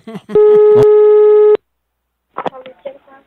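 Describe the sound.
A telephone line tone sounds while a call is being placed: one loud, steady, even-pitched beep lasts just over a second, with brief talk before it and voices afterward.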